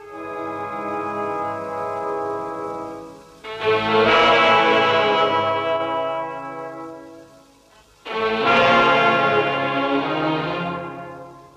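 Deep bells ringing with a rich, sustained hum: a few heavy strokes, each swelling loudly and then fading slowly into a lingering drone, with no voices.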